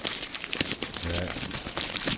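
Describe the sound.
Crinkling and rustling of a paper slip bearing a name as it is unrolled after a name draw. The crisp, papery crackles run steadily, mixed with a voice.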